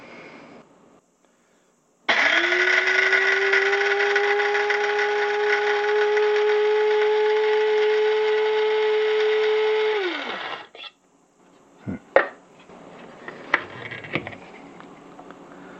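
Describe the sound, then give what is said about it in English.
An electric coffee grinder grinds coffee beans to a coarse grind in one steady, loud whirring run of about eight seconds, then winds down with falling pitch, followed by a few knocks and clatters. “It should take about this particular grinder only takes about 15 seconds each grind.”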